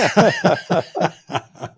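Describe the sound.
Coughing and throat clearing from a man, a run of about six harsh, rough bursts in quick, fairly even succession, each fading slightly before the next.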